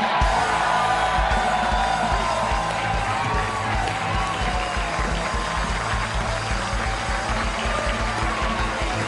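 Studio audience cheering, whooping and applauding for a guest's entrance at a Green Bay Packers show, a loud, dense and unbroken wash of clapping and shouts throughout.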